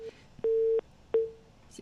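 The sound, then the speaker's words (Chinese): Telephone line tones as a call to a reporter connects: two steady mid-pitched beeps, the first held evenly and the second fading away, with faint clicks before and after. “前方的电话呢马上将会联系当中，我们将会联系的是前方的记者齐良博小齐”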